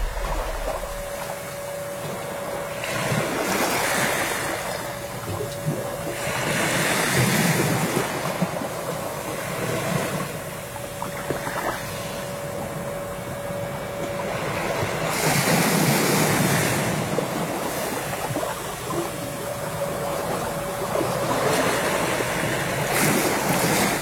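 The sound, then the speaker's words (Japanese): Ocean waves surge and wash ashore on Hateruma, a small island at the southern tip of the Yaeyama Islands. The roaring surf swells and recedes in repeated loud waves, with wind noise running throughout. “今皆さんにお聞きいただいているこの波の音も波照間島で撮ったものです。”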